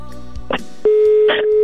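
Telephone ringing tone on an outgoing call: a steady electronic tone switches on partway through and holds to the end, with a couple of short noisy bursts along the line.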